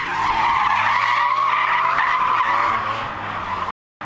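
Tires squeal loudly and steadily as a car drifts sideways on a race track in Rusocin. The harsh, sustained screech holds for several seconds with engine tone beneath it, then cuts off abruptly near the end.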